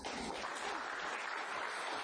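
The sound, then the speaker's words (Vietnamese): Audience applause at a Buddhist lecture, a dense, steady patter of many clapping hands that holds at an even level for about two seconds, with no voices over it. “Mọi người vỗ tay cổ vũ một chút.”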